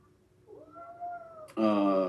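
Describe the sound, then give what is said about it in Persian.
Cat meowing indoors: a quieter, drawn-out tonal meow, then an abrupt, much louder and harsher meow that holds until the end. “آره این گربه هم اومده، منتظرش بودم.”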